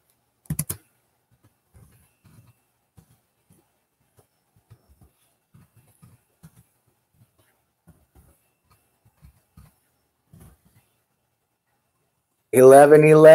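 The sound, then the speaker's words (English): Typing on a computer keyboard: sparse, faint key taps scattered across a long quiet stretch after a brief louder burst at the start. A person begins talking loudly at the very end. “I'll type it out for you guys.”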